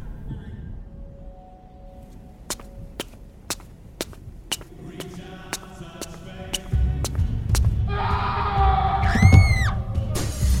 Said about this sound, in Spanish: Eso. Son gritos.